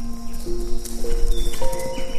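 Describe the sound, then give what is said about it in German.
Hooves of three brown horses running through trees, a steady stream of low rhythmic thuds heard together with sustained tones. “Und wenige Sekunden später kommen drei braune Pferde durch die Bäume gelaufen.”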